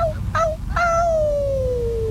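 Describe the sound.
A person howls to call people back. A couple of brief, sharp cries lead into one long, sustained howl whose pitch slowly glides downward, a human voice imitating an animal's howl.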